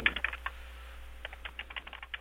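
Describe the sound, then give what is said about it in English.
Typing on a computer keyboard: a quick burst of keystrokes, a short lull, then a steady run of light, rapid clicks, all fairly quiet. “Right, sorry, I'm just typing all this down. I don't have a tape recorder at the moment, so I'm just having to type it all out.”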